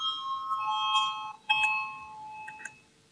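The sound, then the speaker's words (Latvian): Electronic bell signalling a vote in a parliament chamber: a faint series of ringing, chime-like tones that step between a few pitches, with a sharper renewed strike partway through. “Lūdzu zvanu, balsosim par 5. juridiskā biroja priekšlikumu.”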